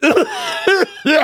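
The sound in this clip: A voice imitates a cough, mimicking a baseball coach who pulled his mask down to cough in the dugout. It comes as three short, harsh, voiced bursts, each loud and abrupt, separated by brief gaps.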